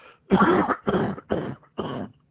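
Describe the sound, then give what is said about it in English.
Four harsh coughs in quick succession from a person coming down with the flu, each a throaty, rough burst separated by brief pauses. “Excuse me. I've developed a little cough.”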